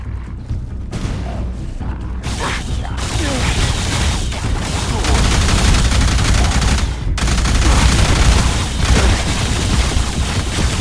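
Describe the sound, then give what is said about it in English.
Loud, dense video game gunfire: continuous volleys of shots and heavy booms layered together with no break throughout. “Why is it I can't see who's shooting at me?”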